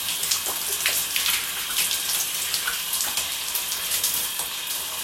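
Shower water running while someone rinses an arm: a steady hissing spray with irregular splashing patter and small bursts as the water strikes the skin, and no talk.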